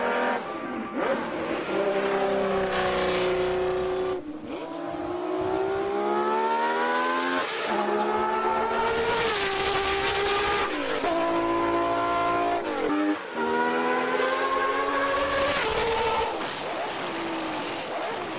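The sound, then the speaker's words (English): A car engine revving hard, its loud, continuous whine climbing steadily in pitch and dropping off sharply several times as gears change, with a throaty roar throughout and no talking. “Oh, listen to those downshifts.”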